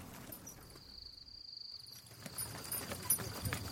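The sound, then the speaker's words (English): Faint, rhythmic clip-clop of horse hooves as a carriage travels along a road, accompanied by a thin, steady high-pitched insect-like tone. “Halt! Halt! We have arrived. We shall spend the night here in the estate's barn. Take your leave of my carriage.”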